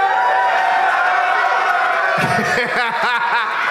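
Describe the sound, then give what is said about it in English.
An audience at a live movie-themed comedy event on a Friday afternoon roars and cheers in a dense, sustained wash of voices. Partway through, a single voice starts speaking over the fading crowd. “It was like half the crowd knows the chant and the other half is just here to have a nice time on a Friday afternoon”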